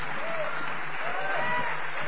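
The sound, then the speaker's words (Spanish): Festival audience applauds its artistic director with dense, continuous clapping that stays at an even level throughout. “quería que pedirles por favor un aplauso grande, grande, grande, grande para nuestro director artístico, este año más que nunca.”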